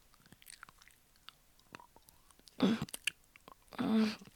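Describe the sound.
Chewing on food that looks tasty, heard as a few loud crunchy bites with a brief pause between them, against an otherwise quiet background with soft small sounds.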